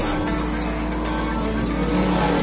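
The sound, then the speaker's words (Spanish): Engine roar of a Porsche speeding through an industrial estate in a car-chase action film scene. The sound is a loud, continuous, dense rumble that stays strong from start to finish with no pause. “El Porsche de Navas recorre el polígono a gran velocidad con el coche de Mikkel detrás.”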